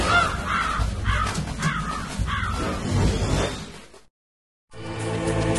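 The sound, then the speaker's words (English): A raven caws in a video game: a few harsh, raspy caws in quick succession over a rough, noisy background, then a brief cut to silence before the sound resumes. “Yes, the raven on my head. It thirsts for his blood.”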